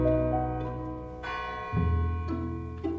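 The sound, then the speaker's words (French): A church bell rings the Angelus in several repeated strokes, each with a bright strike and long humming decay that overlaps the next, faint overall. “Un soir, que la fenêtre était ouverte, Emma entendit tout à coup sonner l'Angélus. À ce tintement répété, la pensée de la jeune femme s'égarait dans ses vieux souvenirs de jeunesse et de pension.”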